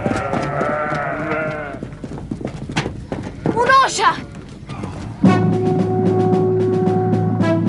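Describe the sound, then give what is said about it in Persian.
Horses' hooves clip-clopping as riders approach, with many rapid beats throughout. Voices and animal cries sound over the hoofbeats. “ماما یه عده سوار دارن میان. از کدوم طرف؟ از اون طرف.”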